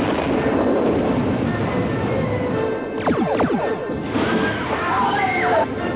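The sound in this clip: A sound effect of a weapon scoring a direct hit on a space station: a continuous roaring rumble, a crashing impact partway through, and then sweeping electronic tones over the noise.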